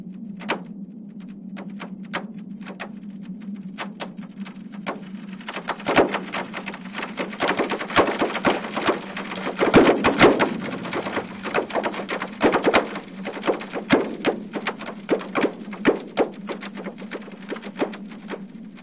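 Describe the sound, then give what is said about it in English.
Earthquake seismic data from weeks of rumbling on a peninsula, sonified into snaps and pops: sharp, irregular clicks scattered over a steady low hum, getting denser and louder around the middle. “That sound is a translation of seismic data made by the EarthTunes app, run by Northwestern University. Each of those snaps and pops represents an earthquake.”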